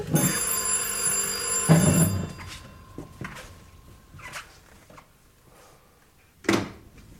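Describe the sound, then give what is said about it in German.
A telephone bell rings steadily for about two seconds and then stops, followed by a few soft knocks and handling clicks, with no talk. “Ich gehe ans Telefon.”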